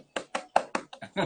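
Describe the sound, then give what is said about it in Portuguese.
Knocking on a window: six quick, evenly spaced raps in a short, steady rhythm, each a dull, hollow thud. “Ó, tô, eu tô batendo na janela.”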